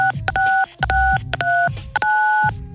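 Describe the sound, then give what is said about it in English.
Telephone keypad dialing tones: several short, steady dual-pitch beeps keyed in quick succession as a number is dialed, clear and even in loudness. “dial 92 MONEY”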